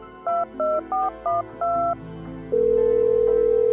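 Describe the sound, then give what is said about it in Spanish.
Touch-tone telephone keypad dialing a number: five quick two-note beeps in a row, the last slightly longer, then a steady continuous tone. No voices. “así que decidió marcar el número de la casa abandonada.”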